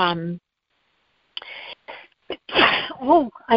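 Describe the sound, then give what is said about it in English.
A person in a fit of sneezing: after a short silence, a few abrupt, loud, breathy bursts arrive in quick succession, mixed with voiced gasps. “I tried to hit the mute, but I didn't get there quick enough. I'm sorry. Sometimes a sneeze just won't quit, you know? Oh, man, that just snuck up on me.”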